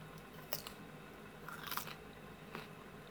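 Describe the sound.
Biting and chewing of a sweet food, heard as a few faint, crisp crunchy bites spread unevenly across a quiet background with no talking.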